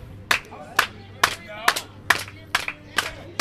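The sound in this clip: A wrestling crowd claps in a steady, evenly spaced rhythm to spur on a struggling wrestler. The claps are sharp and crisp, with short gaps between them and low chatter underneath.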